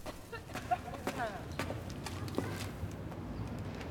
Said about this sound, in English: comes up the stairs.